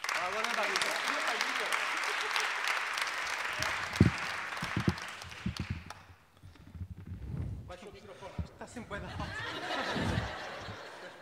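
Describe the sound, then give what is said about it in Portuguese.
Audience applause from a live comedy game-show crowd, a dense steady clatter of clapping filling the first half, fading around the midpoint, then swelling again briefly near the end amid scattered voices and chuckles. “quero mais uma salva de palmas, por que não? Pode ser.”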